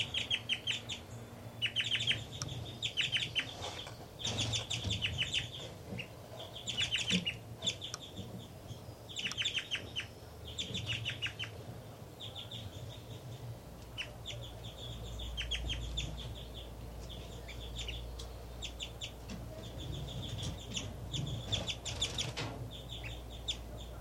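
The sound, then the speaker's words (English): Birds call while one adult feeds its nestlings and another flies around giving flight calls: many high chirps repeated in bursts over a steady low rumble. “3-3 is now feeding the babies. And she's giving a strange call while feeding. 5-9's flying around giving flight calls. 3-3 appears to be singing while feeding.”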